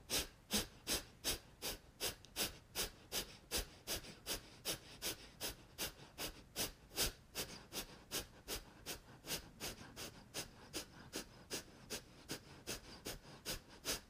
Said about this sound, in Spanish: Vamos a inhalar. Y Kapalabhati.